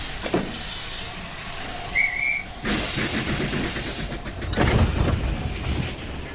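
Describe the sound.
Steam hissing from a train at a station: broad, rushing bursts of hiss that swell and cut off, with a brief high whistle-like tone partway through, heard alone and fairly loud.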